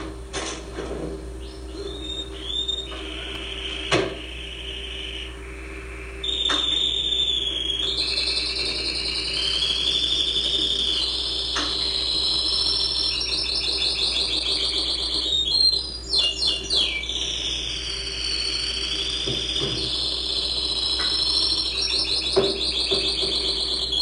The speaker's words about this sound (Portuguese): Agora vamos deixar o canário cantar.